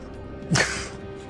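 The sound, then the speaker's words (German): Bowstring of a crossbow snapping as a bolt is released: a single sharp, brief whack that rises out of a faint steady background hum. “Und du hörst das scharfe Schnalzen der Sehne, als sich der Bolzen von derselbigen löst.”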